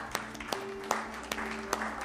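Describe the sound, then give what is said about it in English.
A few sharp, evenly spaced claps from a church audience ring out as people come forward, faint over a low, steady sustained tone. “Come on, give them a clap as they come.”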